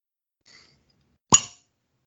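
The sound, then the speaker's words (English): A single sharp pop as a cork comes out of a wine bottle, brief and moderately loud, standing alone after a very faint soft rustle. “I'm going to try to get a cork sound. Here we go.”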